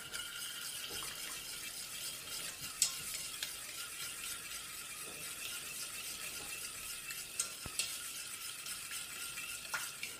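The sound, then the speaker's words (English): Quiet stirring as sugar is blended into a mixture: a soft, steady scraping hiss that continues throughout, broken by a few faint ticks, with no talk. “And now we put in the sugar. blend it.”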